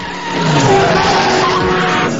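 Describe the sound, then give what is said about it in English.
Loud, sustained tire screech and roaring engines as cars skid in traffic on a beach road to avoid a vehicle making a U-turn. The noise is one continuous wall with steady whining tones running through it. “Cars skid to avoid him as he pulls a skillful U-turn on the beach road and weaves away through traffic.”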